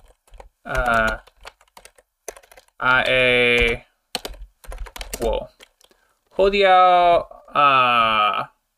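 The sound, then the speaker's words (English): Typing on a computer keyboard: a scatter of quick, crisp key clicks falls in the gaps between several bursts of a voice talking. “So we're going to type it exactly as you hear it.”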